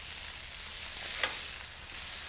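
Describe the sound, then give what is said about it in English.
Smash burgers sizzle on a grill in a steady, soft frying hiss, broken about halfway through by one brief sharp scrape or pop. “We're just gonna just make sure our burgers don't burn at all.”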